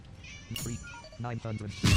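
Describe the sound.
A cat meows in a video game, giving short rising and falling cries mixed with a person talking over the game sound, ending in a brief burst of louder noise.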